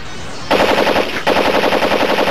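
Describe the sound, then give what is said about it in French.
A loud AK-47 automatic gunfire sound effect: a rapid, continuous rattle of shots in two long bursts, the second following straight on from the first. “Grenade à fragmentation! Ah! AK-47 tonitruant!”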